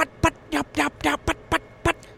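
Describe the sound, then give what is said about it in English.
Sharp, cutting yelps from a hen call imitating an angry hen, heard as a quick, uneven run of loud, raspy notes with short gaps between them. “And so cutting, yelping, trying to sound like a real hen, trying to sound like I'm angry.”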